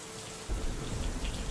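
Rain falls as a soft, steady hiss of dense drops. It grows fuller and heavier with low patter after about half a second, then continues evenly, fairly faint and alone.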